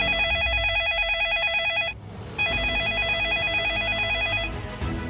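A telephone rings in two long bursts of fast electronic trilling, split by a short gap, loud over a low, steady background.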